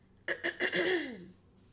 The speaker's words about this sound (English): I just got a froggy in my throat.